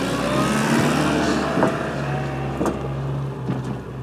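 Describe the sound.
A car driving past a farm's feed storage holding maize and beet pulp, its engine giving a steady low rumble throughout, with a few brief knocks or rattles over it.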